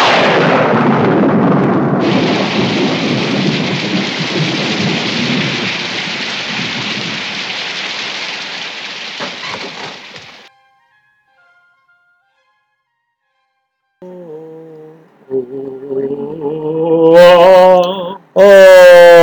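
Heavy rain with thunder: a loud, steady downpour hisses with deep thunder rumbling underneath for about ten seconds, then stops abruptly. Unrelated tonal sounds follow later.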